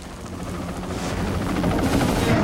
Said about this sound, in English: He looks up at the two choppers following him and then bounds on.